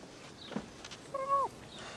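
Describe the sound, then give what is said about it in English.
A short meow from a black and white cat lounging on an outdoor picnic table: one brief, fairly faint tonal cry that bends downward at its end, with soft scattered background noise around it. “Outside, a black and white cat lounges on a picnic table.”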